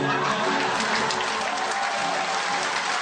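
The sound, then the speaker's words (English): An audience applauding before a man sings a cover song: a thick, even wash of clapping with some crowd murmur mixed in, holding steady at moderate level throughout. “Quiet down. We want to hear. Stop applauding. Let the man sing.”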